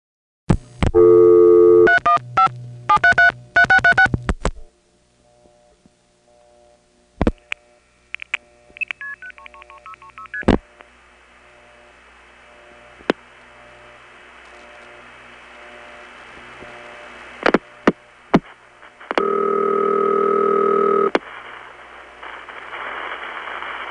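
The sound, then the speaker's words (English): Telephone calls through Bell System number 1 step-by-step switches in Utica and an independent step-by-step office in West Winfield: bursts of touch-tone dialing, then scattered switch clicks, a thin steady line tone and a loud sustained tone near the end. “Here are two calls to the Bell System number 1 step in Utica itself, then a call to an independent step in West Winfield.”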